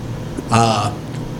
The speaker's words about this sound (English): did I throw him off my burp?